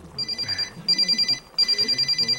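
A phone rings with an incoming call: three bursts of rapid, trilling high-pitched electronic ringing, separated by brief gaps, with no talk over it.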